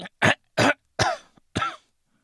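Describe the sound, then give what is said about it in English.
Throat clearing from something stuck in the throat: four loud, harsh bursts come in an uneven rhythm, the later ones rougher and trailing off, with no talk. “No, I just had something stuck in my throat. Did you hear that?”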